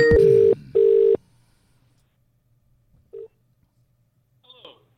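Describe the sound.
A telephone is redialed after hanging up. Two sustained, loud phone tones sound back to back, followed by a quiet pause, then a single short beep and faint rustling at the end.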